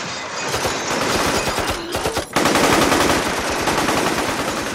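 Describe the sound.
Sustained machine gun fire, several shooters firing nonstop at houses and vehicles: loud, rapid, dense bursts of shots that run almost continuously, with one brief break partway through, and no voices.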